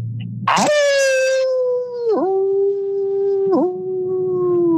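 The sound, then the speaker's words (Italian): A person imitates a wolf howl: one long, loud, sustained vocal wail that holds a steady pitch and briefly breaks twice before continuing. “E adesso sentite il vostro bello allulato.”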